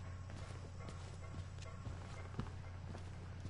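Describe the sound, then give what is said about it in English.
Footsteps walking away, a series of soft, faint steps over a steady low hum. “Let me just... take several steps away.”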